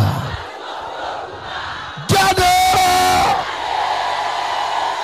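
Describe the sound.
A crowd of people shouts together in one sudden, loud roar lasting just over a second, breaking out of a low background murmur and cutting off abruptly.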